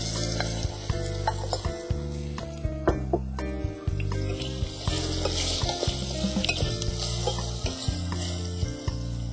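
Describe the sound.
Sliced mushrooms fry in a pan with a steady sizzle and crackle, broken by many stirring scrapes throughout.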